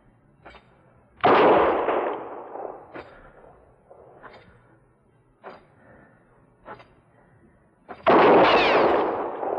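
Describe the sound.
Gunshots ring out in a western radio drama: two loud blasts with long, rumbling decays, several seconds apart, with fainter sharp knocks scattered between them.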